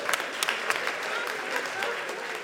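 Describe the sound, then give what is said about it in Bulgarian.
Applause from the audience at a comedy roast: dense, steady clapping with a few sharper claps standing out, continuing evenly throughout. “Благодаря ви за тези пресилени аплодисменти деца на 16.”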